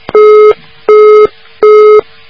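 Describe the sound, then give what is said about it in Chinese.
Telephone busy tone after a call is cut off: three loud, steady electronic beeps of equal length, evenly spaced with short silent gaps between them. “电话断了”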